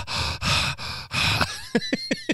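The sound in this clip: A voice imitates heavy breathing close to a face, like a nurse leaning in over a hospital patient: four loud, rasping breaths in steady succession, then a few short, sharp puffs.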